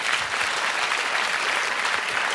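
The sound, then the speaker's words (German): Audience applause at a German public celebration honouring a toy shop founded in 1685: dense, steady clapping from many hands, loud and even throughout with no voices over it. “Ich finde das ein Applaus wert, oder?”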